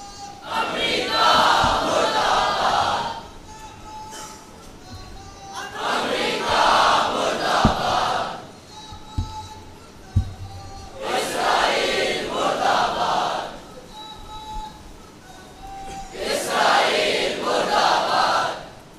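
A large crowd at a religious gathering chants a slogan in loud unison, in four surging bursts of about three seconds each, with quieter gaps between them and a couple of sharp thumps.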